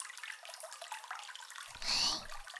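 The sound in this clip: Water rinses hair during a hair wash: a soft, steady hiss of running water, quiet throughout, swelling into a brief louder splash just before the end.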